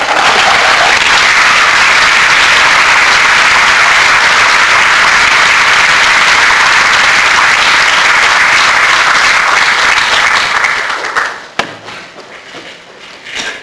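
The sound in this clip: Applause from a lecture audience welcoming the evening's speaker: dense, sustained clapping that holds steady for about eleven seconds and then stops abruptly, leaving near quiet with a faint stray clap.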